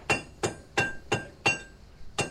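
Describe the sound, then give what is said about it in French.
A hammer beats Wootz steel on an ancient anvil, each blow a sharp ringing metallic clink, falling in a steady rhythm of about three per second with a short pause before the final strike. “Elle pousse un cri guttural venu du plus profond de ses entrailles et sur une enclume au moins aussi vieille que le monde, commence à marteler le Wootz.”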